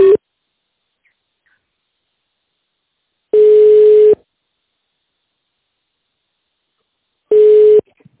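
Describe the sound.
A telephone ringback tone sounds while a caller waits to be connected to a company secretary. Two full steady, mid-pitched tones come about four seconds apart, each under a second long, with the tail of an earlier tone at the start and silence between.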